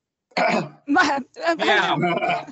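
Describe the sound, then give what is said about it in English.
A person clears their throat in three rough, raspy bursts separated by short pauses, the last one longer and drawn out. “I thought you had something in your throat again”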